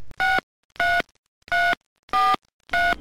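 Five touch-tone dialing beeps as a telephone number is dialed to call a company about a job, each a steady, evenly spaced electronic tone with short silences between them.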